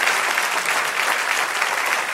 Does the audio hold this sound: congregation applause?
yes